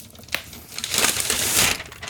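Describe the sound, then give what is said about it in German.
Paper wrapping is torn and crinkled off a black package, making a rustling, crackling sound that grows louder and denser over the second half, with a sharp crack near the start. “So, Papier habe ich jetzt aufgemacht.”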